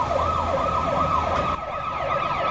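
A fire engine siren wails as the engine arrives, a loud, continuous, rapid rising-and-falling yelp that repeats steadily over a rumbling engine.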